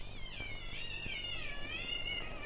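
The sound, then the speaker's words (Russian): Cats caterwauling on rooftops at night in March: a drawn-out, wavering yowl that bends up and down in pitch, loud and continuous from start to end, with no talk. “Такие концерты происходят на крышах домов по ночам. В марте кошкам они очень нравятся.”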